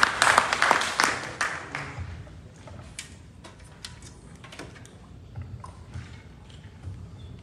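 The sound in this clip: A church audience applauds a guest speaker. The clapping starts loud and dense, then thins within a couple of seconds into scattered, fading claps and a few soft knocks.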